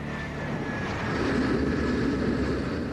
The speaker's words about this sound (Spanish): El avión de Ali Mohammed aterriza aquí en el aeropuerto Kennedy.